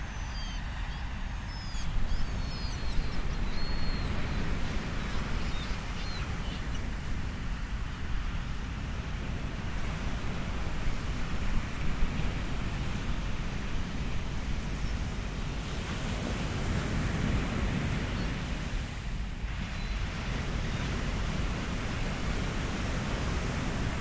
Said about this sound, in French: Je réussis finalement à aller jusqu'au bord de la mer.